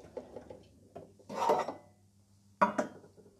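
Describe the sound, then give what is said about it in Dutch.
A small metal saucepan is handled on a kitchen stove: a few light taps, then a longer scraping drag, then two sharp metallic clanks close together. “Even aan de kant schuiven. En dan maak ik even plaats. Pak ik een ander pannetje. Pak ik gewoon een steelpannetje.”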